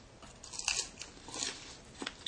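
Crisp bites go into the coating of darker-coloured karaage fried chicken, giving a few soft, dry crunches spread over two seconds. They are quiet and sit alone without talk.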